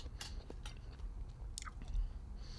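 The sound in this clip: Chewing on olives as a snack alongside a martini: a few faint, crunchy, wet bites and mouth noises, heard alone against a quiet background.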